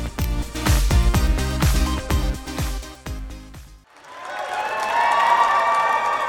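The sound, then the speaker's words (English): Crowd cheering and applause at the New York Stock Exchange, with high fives and fist pumps, break out after a stretch of rhythmic music ends and swell into a loud, sustained roar. “High fives, handshakes, and fist pumps there at the New York Stock Exchange.”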